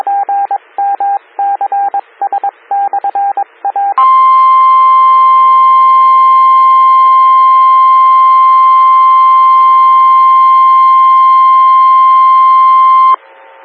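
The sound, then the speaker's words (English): A weather radio alert sounding before a tornado watch for Illinois counties: several seconds of rapid chirping data bursts, then a loud, steady high tone held for about nine seconds before cutting off. “Attention, Tornado Watch.”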